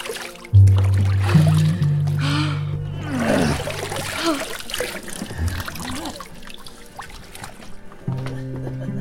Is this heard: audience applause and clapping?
no

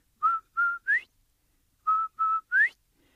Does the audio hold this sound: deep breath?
no

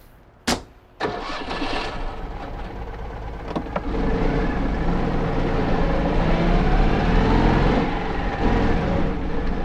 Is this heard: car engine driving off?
yes

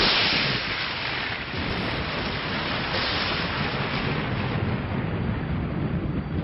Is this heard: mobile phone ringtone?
no

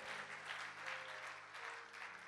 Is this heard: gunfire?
no

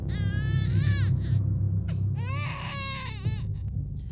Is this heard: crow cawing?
no

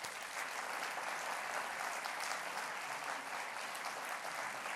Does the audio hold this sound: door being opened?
no

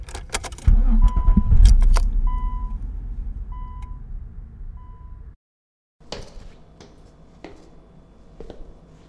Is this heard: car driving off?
yes

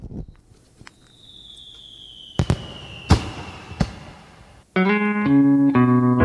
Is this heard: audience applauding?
no

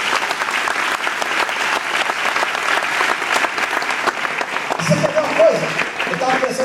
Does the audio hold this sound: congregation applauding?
yes

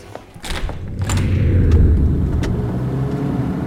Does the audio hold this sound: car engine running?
yes

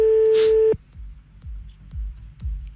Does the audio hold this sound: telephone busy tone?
yes

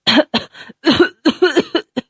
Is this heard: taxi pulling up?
no

